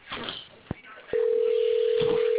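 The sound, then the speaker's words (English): A steady, single-pitched telephone ring tone sounds as an outgoing call is placed. It starts about halfway through after a faint murmur and a couple of soft knocks, then holds loud and unbroken to the end. “Who's ringing the phone now? I am.”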